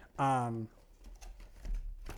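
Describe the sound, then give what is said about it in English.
Cardboard of a McDonald's Happy Meal box being handled, giving faint scratchy taps and crinkles right after a brief voiced sound from a person. “I am holding, you can hear it, I'm doing a little bit of ASMR for you, of the cardboard of a Happy Meal box. There you go.”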